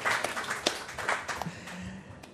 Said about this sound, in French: Bravo, on peut le réapplaudir.